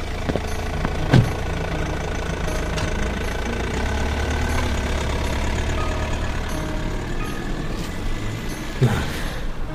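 A car drives away among engine noise: a steady low motor rumble with a few brief hissing, brake-like bursts near the start and the end, moderately loud throughout, without voices.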